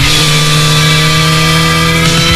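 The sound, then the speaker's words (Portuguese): A motorcycle engine runs loud and steady throughout, a dense droning hum with strong low tones and no clear revs or pauses. “Liga o motor, chama a tua família Motard e faz parte desta história. Quinto encontro Motard de Apúlia.”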